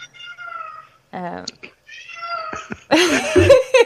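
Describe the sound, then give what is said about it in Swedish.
A pet cat meows a few times with clear, drawn-out tonal cries, then gives a louder, rougher stretch of vocalising near the end. “Är det där en katt? Ja, det är min katt.”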